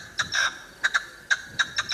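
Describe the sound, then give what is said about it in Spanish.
A partridge calling with a rapid series of about eight short, high, scratchy notes in uneven bursts, some slightly drawn out, heard alone. “La perdiz. Eso es una perdiz. Es una perdiz.”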